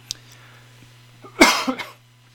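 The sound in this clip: A person with a throat irritation gives a short, harsh cough: one strong burst and a smaller follow-up, set against near silence and a faint low hum.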